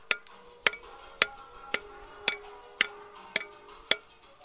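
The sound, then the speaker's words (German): Hammer and chisel striking stone as a sculpture is carved: about eight sharp, bright, ringing clinks in a steady, monotone rhythm roughly every half second, each decaying quickly into near quiet. “Der Klang von Hammer und Meißel, wie sie dem Stein seine Form geben, ist weithin zu hören. Das einsame und monotone Schlagen des Hammers”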